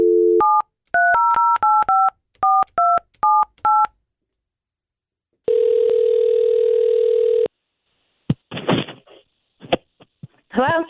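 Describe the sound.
Telephone dialing to place a call: a brief dial tone, then a quick run of about ten beeping keypad tones, a steady two-second ringing tone after a pause, and finally some faint clicks and rustles.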